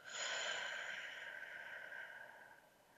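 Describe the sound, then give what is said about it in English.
A single long, soft breath taken during a guided breathing exercise, in through the nose and out through the mouth as if through a straw. It is a faint, steady airy hiss with no talk. “So let's take a moment and take a breath in through the nose, out through the mouth like through a straw.”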